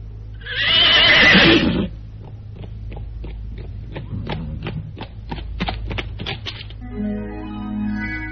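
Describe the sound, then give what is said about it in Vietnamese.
A horse neighs loudly in a Vietnamese stage drama, a long shrill whinny followed by many steady clip-clop hoofbeats of a trotting horse, with no voices. “Kìa, tiếng ngựa gì thế?”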